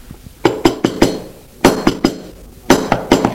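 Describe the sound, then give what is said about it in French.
Knocks on a door come in three sets of four firm, sharp raps. Each set has an even rhythm, and short pauses separate the sets. The knocks are loud and nothing else is heard. “On frappe encore.”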